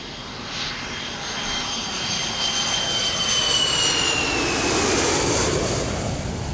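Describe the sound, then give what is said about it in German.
Jet airplanes at an airport, heard from a terrace overlooking the field, make a continuous broad roar with a high turbine whine that swells steadily louder and stays strong to the end. “Von der Terrasse hier oben sieht man wirklich den ganzen Flughafen.”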